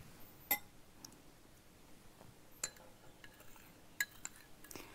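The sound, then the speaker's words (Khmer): Faint metallic and glassy clinks of kitchenware as red sugar is added while cooking. A few sharp, isolated taps and chinks are scattered over a quiet background. “គ្រឿងផ្សំរបស់យើងយើងអត់ទាន់បានដាក់គ្រឿងផ្សំទេអញ្ចឹងសូមជួយយក ដាក់ស្ករ ស្ករហ្នឹងនឹងដាក់ស្ករ”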